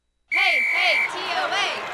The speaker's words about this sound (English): What's that about? Oh, the TOA cheer.